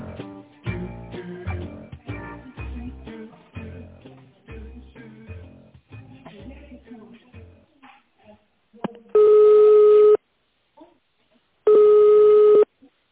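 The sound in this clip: Ringback tones on a phone line as a support operator's automated voice menu connects the call. A recorded voice speaks first, followed by two long, steady, loud tones separated by a pause.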